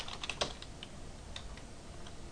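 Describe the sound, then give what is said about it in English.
Keystrokes on a computer keyboard as a password is typed: a quick cluster of sharp clicks early on, then sparse, faint taps over a low steady hiss. “Password field, so I'll just type that in. Oops. Blank. I mistyped. Hold on.”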